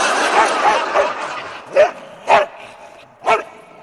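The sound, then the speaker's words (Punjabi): A dog barks: a few soft yips come first, then three louder, sharper barks spaced roughly half a second to a second apart. “ये आपके पास खड़ा है ना doggy, कितना प्यारा है।”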